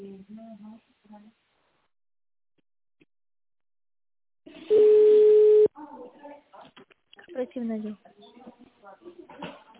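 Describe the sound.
A telephone ringing tone sounds while a caller waits for an operator: one steady, flat electronic note of about a second, with people talking before and after it.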